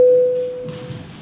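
Electronic signal tone announcing voting mode in a parliament chamber: a single steady, pure mid-pitched beep that starts loud and fades away within about half a second, leaving quiet room noise.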